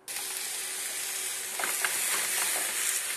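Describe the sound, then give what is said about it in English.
Anchovies sizzling in a pan for a garlic-and-oil linguine with onions, a steady faint hiss of frying that grows slightly busier with a few soft crackles toward the end. “And now we could add the anchovies. You don't have to chop them up because they sort of disintegrate right in the pan.”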